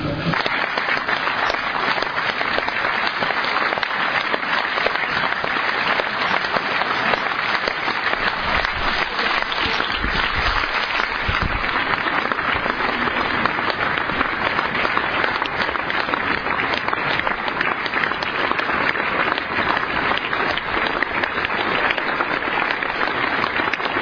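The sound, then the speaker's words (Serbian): Long, sustained audience applause for Jasenovac camp survivors after a film screening: dense, continuous clapping that holds a steady, loud level throughout with no pause or fade. “ali ćemo svakako pustiti deo kako biste čuli snagu emocije publike.”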